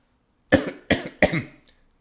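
Three sharp coughs to clear something caught in the throat come in quick succession, each with a short rough tail, then a faint final catch. No other sound.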